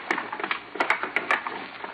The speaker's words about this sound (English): Okay, everybody bring all that driftwood here and pile it in the center.